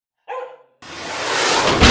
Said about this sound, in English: My New Year's resolution is to kill that f***ing dog.